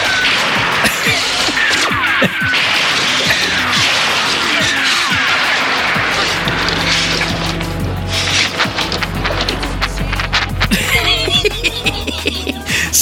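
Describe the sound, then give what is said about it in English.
Bottle-rocket shots strike the Mandroid in a film fight scene, with many dense crashing impacts, whacks and booms piling up in a noisy, loud barrage. “So the Mandroid's fighting the super scientist, and all those shots were shots that are hitting the Mandroid. Oh, he's the only hope we got, and he's just raining bottle rockets all over him”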